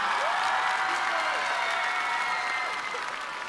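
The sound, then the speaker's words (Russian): Dense audience applause fills a stage arena at an international charity festival where talented children perform, a loud steady wash of clapping that holds for the whole stretch and eases slightly toward the end. “Они действительно все достойны ваших аплодисментов и вашей любви.”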